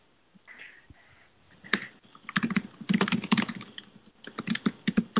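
Loud typing on a computer keyboard: after a quiet start, rapid clusters of sharp key clicks rattle along in uneven bursts, with a brief pause near the end before another quick flurry.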